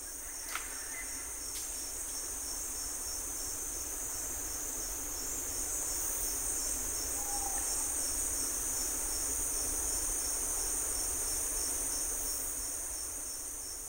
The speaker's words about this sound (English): This is a forest in Panama. It was recorded by Laurel Symes. Sound engineer Bill McQuay slowed her recording down so we can hear all the ultrasonic frequencies.